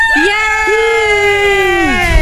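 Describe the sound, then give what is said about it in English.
Audience cheering and whooping during a round of a licking contest, with a loud, sustained high voiced cheer that holds steady across the whole clip. “Give us a cheer if you think Seamus has won this round.”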